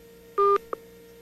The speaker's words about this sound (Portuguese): Acabou de cair a ligação.